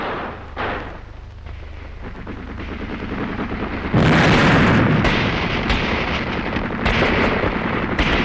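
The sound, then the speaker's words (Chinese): Gunfire in a shootout as secret police agents fire on a counter-revolutionary hideout. A quieter opening gives way to a sudden loud barrage of many sharp, rapid shots that keeps going to the end. “战斗打响了，契卡的同志们在向这个反革命黑窝射击。”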